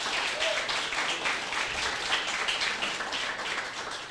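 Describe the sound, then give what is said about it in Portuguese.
A church audience applauds during a service, producing a steady, continuous patter of many hands at moderate loudness that barely varies across the stretch. “Você pode aplaudir essa palavra, irmãos, em nome de Jesus?”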